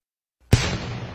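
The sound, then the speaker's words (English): One cannon shot from a 21-gun salute, fired by a U.S. Army artillery regiment with reenactors in Lexington, Massachusetts, marks the 250th anniversary of the Revolution's first shot: a single loud boom after silence, trailing into a rumbling decay. “Reenactors heard this 21-gun salute this morning from part of the U.S. Army 101st Fuel Artillery Regiment.”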